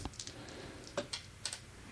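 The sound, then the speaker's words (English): Dice rolled on a desk, heard as a few faint, sharp clicks and clatters spread over a couple of seconds against a low background hiss. “Yeah, let's roll dice. I have the dice. I will roll.”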